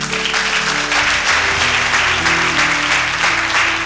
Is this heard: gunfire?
no

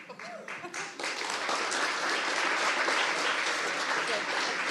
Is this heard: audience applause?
yes

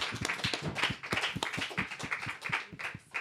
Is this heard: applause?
yes

